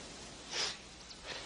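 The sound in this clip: A quick, faint sniff through the nose, as someone inhales a powder, rises sharply and fades. A smaller, softer sniff comes near the end, with quiet hiss between them.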